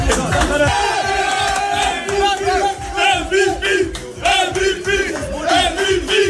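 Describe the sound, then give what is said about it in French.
A group in a Paris football dressing room gives a player an ovation: loud, rowdy chanting and shouting from many voices, with rhythmic bursts throughout. “on préfère clairement écouter l'ovation qu'il a reçue dans le vestiaire parisien.”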